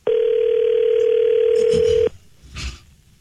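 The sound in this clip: Telephone dial tone heard while a call is being placed: a steady, loud, unbroken hum lasts about two seconds and then stops, leaving a few faint brief sounds afterward.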